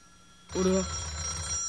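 A telephone rings after a short quiet moment, with one bright, loud ringing burst that sets in sharply and keeps sounding to the end.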